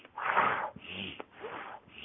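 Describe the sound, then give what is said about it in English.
Deep breaths demonstrating circular breathing, drawing air in through the nose and pushing it out through the mouth. A few long, airy, breathy rushes of noise with short pauses, moderately loud and with no talk. “You can do things like circular breathing where you're breathing in”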